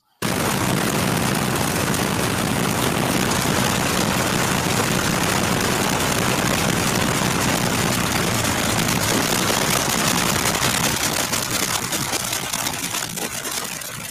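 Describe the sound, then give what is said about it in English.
Loud, continuous roar of a pulling tractor's engine with seven banks of six cylinders, a dense unbroken wall of mechanical noise holding steady for the whole stretch and easing slightly near the end. “the only pulling tractor in the world that comes with its own rave. Yes. So to put that engine in, in perspective, you got seven banks of six cylinders each.”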